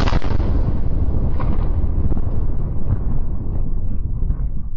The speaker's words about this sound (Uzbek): Powerful explosion at a warehouse in the capital city of Tashkent several hours ago.